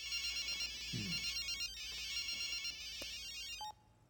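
A phone ringtone signals an incoming call from an unknown number in an animated scene: a bright, repeating high electronic melody plays steadily and fairly softly, then cuts off abruptly near the end.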